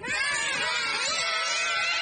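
Children screaming together during play in shallow water, a shrill, continuous mass of overlapping cries that stays loud and unbroken from start to end.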